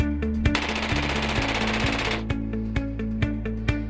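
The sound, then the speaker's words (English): Automatic weapon gunfire at a firearms training course: a sustained rapid burst of fire lasting about two seconds, followed by a few separate sharp reports at a steadier pace. “Larry Elder with an automatic weapon.”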